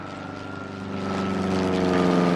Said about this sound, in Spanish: con el ruido de una de estas avionetas, bueno. Una de ellas, bueno, sobrevola en estos momentos nuestras cabezas.